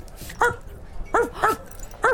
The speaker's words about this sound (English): Look at this adorable dog.